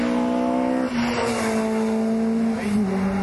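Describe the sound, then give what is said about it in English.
A moving 1976 two-door Escort rally car with a Cosworth BDA engine gives a loud, sustained buzzing engine drone at a fairly steady pitch, dipping briefly early on and again near the end. “That's an Escort. With a BDA Cosworth engine. Well, definitely with a Cosworth engine. Two-door 1976 Greg Carr style rally. And moving too.”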